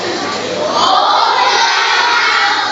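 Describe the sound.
A crowd at a church gathering of children claps and cheers for a group from Bà Rịa Vũng Tàu in a loud, steady roar of voices and applause that keeps going without a break.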